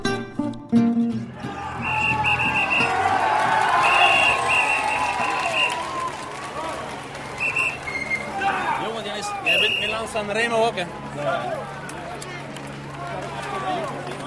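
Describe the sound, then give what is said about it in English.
Crowd cheering at the Tour de France stage finish in Saint-Étienne as riders race past the line, with loud shouting voices and bursts of whistle-like or horn-like tones that swell early and then thin into scattered calls and chatter. “The noise you heard there was from the position where we journalists are camped, just past the finishing line, as Alexander Kristoff, the Norwegian, who won stage 12 of the Tour de France, raced past with Peter Sagan just behind him.”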